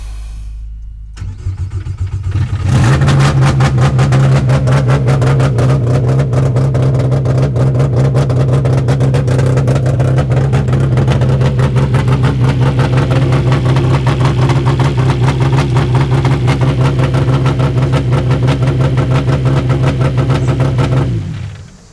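A car engine, in neutral, cranks briefly, catches and settles into a loud, steady idle that runs for about twenty seconds before cutting off abruptly. No voices are heard.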